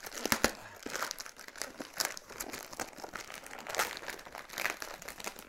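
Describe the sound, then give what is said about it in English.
A child unwrapping a present, with wrapping paper crinkling and rustling in faint, irregular bursts of crackle throughout and no voices. “When you open that third present, what have we got? Come on, card. Open it up.”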